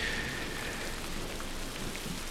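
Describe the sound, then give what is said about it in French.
Steady rain falls in a continuous, even hiss with no distinct drops or pauses. It stays at a moderate level throughout, and no voices are heard. “Bon, ben, un petit peu de pluie, ça ne fait pas nécessairement de mal, disent ceux qui sont à l'abri.”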